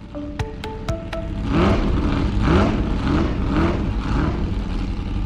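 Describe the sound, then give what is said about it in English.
Formula One racing car engine at speed, its loud high-revving whine climbing in pitch again and again as the car shifts through gears, after a few short electronic beeps at the start. “That's the sound of speed. Formula One racing, to be exact”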